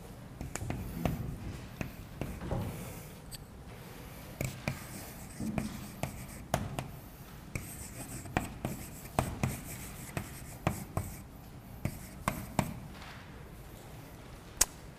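Handwriting of an x-hat symbol, heard as many short, faint scratchy pen strokes in an irregular rhythm with small taps between them.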